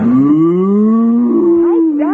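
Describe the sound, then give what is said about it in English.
A cow is being backed into a closet in an office and gives a single long, loud moo that rises in pitch and then holds level for about two seconds, heard alone. “Back the cow into the closet.”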